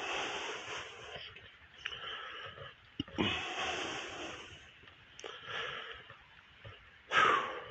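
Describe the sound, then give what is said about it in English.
Heavy breathing of a person walking very fast uphill: a run of breathy, rasping, wheezy breaths with a few sharper, louder exhalations, and no talking. “I'm walking uphill at this point, so if you hear me breathing a little heavier, I'm walking very fast.”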